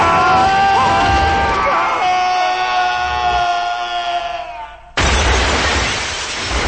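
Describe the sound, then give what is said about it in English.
A car crashes through an office building's glass wall: after a droning, tonal stretch, a sudden loud burst of harsh shattering noise erupts and keeps going to the end. “They drive through the glass wall of an office building.”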